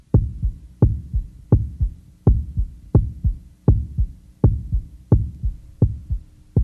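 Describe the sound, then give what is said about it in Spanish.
Heartbeat heard through a stethoscope: steady, regular double thumps, deep and low-pitched, about nine beats repeating evenly with a faint murmuring hiss between them, alone with no voices. “al final de la cual el médico escucha algunos sonidos sencillos, como los latidos del corazón”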